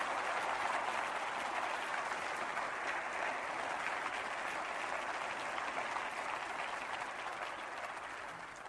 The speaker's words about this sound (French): Et j'aimerais demander à toute la grande assemblée de donner une main de bienvenue à nos ados qui sont avec nous ce matin.